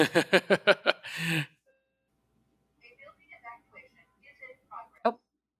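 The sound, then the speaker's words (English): Fire alarm going off, a rapid run of loud, harsh electronic beeps that ends in a noisy burst, followed by silence and then faint voices talking. “So, hold on. That's a fire alarm. This is very emergency related. Let's hold on.”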